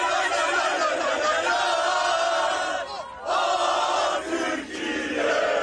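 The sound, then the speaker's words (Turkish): Turkish football fans chant and cheer outside the national team's hotel in Vancouver as the squad arrives and flares are lit. The crowd roar is loud and continuous, dipping briefly twice before surging back. “Türk futbol severler kafile otele ulaştığında meşaleleri yaktı, tezahüratlar yaptı.”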